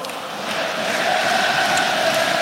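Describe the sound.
Saint-Étienne football supporters fill a sold-out stadium at a play-off match with a steady, loud roar of crowd noise and a droning chant that holds throughout.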